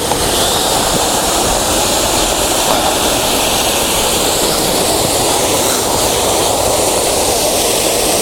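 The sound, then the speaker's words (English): Waterfall rushing close up, a loud, dense and steady roar of falling water that holds constant throughout without any break. “So now I'm going to try my best to cross this waterfall without dropping the camera in it”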